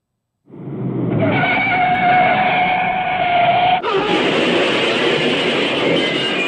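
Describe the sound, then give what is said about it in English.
A stock crash sound effect from a standard sound effects company, starting as a long, loud screeching roar with a steady tonal whine, then abruptly switching partway through to a brighter, harsher sustained noise. “All right, here, we'll play the crash. We have it isolated here.”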